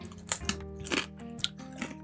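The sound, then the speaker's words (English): Crunchy bites into a lemon-lime tortilla chip: a few sharp, crisp crunches with chewing crackle between them, fairly quiet and with no talk over them. “first I'm going to take a bite of the lime chip”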